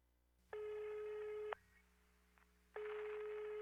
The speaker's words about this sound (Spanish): Tu llamada está siendo desviada al buzón de voz.